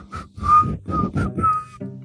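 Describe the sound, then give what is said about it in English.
Hearty, cheerful whistling from a man coming down a street, a lively run of several short pitched notes separated by brief breaks, moderately loud and without talk. “Roslyn hears a hearty whistle”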